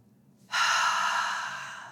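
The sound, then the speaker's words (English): A single slow, deep inhalation: a soft, breathy rush of air that begins abruptly and tapers gently over about a second and a half, alone and without talk. “I want you to close down your eyes and let's just take a nice deep breath.”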